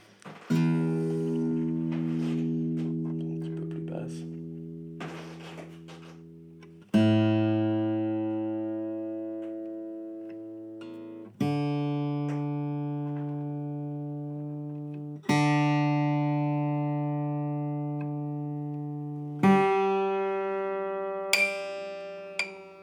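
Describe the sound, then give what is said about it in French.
Plucked strings of a newly made stringed instrument, sounded one at a time for a tuner check after it rested untouched for 24 hours: about six ringing notes, each slowly fading before the next, with no talk. “Donc là, je vais prendre un accordeur. Vérifier si l'accordage va bouger ou pas déjà.”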